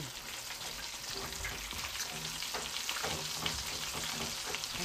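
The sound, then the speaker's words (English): Chicken frying in hot oil, a continuous crackling sizzle with dense, fine pops at a steady level, with no talk. “We got some good fried chicken here. Chicken's looking mighty good. It's looking nice and crispy and crunchy.”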